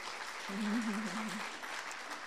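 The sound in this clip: An audience applauds to welcome a speaker with soft, steady clapping that swells slightly then holds evenly throughout.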